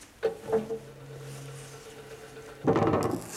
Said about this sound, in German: Luken geöffnet.